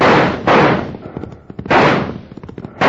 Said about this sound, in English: Doggone it, now they're shooting at us.